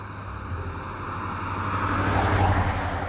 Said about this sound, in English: You just listen to the car here. This guy's going 40.